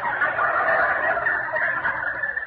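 A turkey gobbles inside a coop, a dense, warbling chatter that runs without pause for the whole clip at a steady, fairly loud level, with no talk over it.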